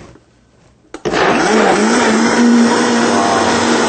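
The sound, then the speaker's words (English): A blender whirs through hot broccoli soup. After a quiet start and a brief click, the motor kicks in and runs as a loud, steady, high-pitched whine that does not let up. “you always want to take caution when you're blending a very hot liquid. So I'm going to be very careful. You need to make sure the lid's on tight. We also recommend getting a towel and putting it over the top before you switch it on.”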